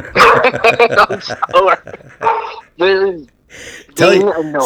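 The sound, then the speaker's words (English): A pet dog barks a few short times, its yips mixed in among people talking loudly over it. “I need her to get a control of the fucking dog. Was that Satan right there trying to bark at our podcast?”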